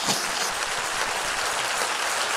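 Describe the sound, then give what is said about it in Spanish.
Congregational applause in a Spanish-language church service rises as a steady, even roar of many clapping hands. It is moderately loud and continuous, and no voices are heard over it. “Si ese es el aplauso, dáselo más fuerte al Señor.”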